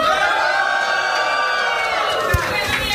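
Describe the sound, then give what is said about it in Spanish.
A church audience shouting a cry of jubilation: a sustained, loud mass of cheering voices with whoops, holding steady throughout. “Eso sí era un grito de júbilo.”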